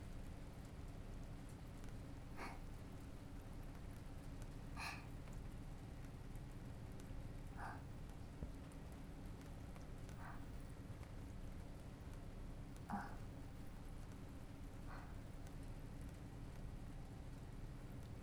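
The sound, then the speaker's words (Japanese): Steady rain that keeps falling without easing, at a park, as a faint, even hiss with a few scattered sharp ticks and no voices. “雨、少しも弱まりませんし。”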